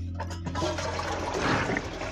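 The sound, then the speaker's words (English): Toilet being flushed: a loud, continuous rush of churning water that holds steady throughout, with a low hum briefly underneath at the start. “Hold on, man. I gotta flush this toilet.”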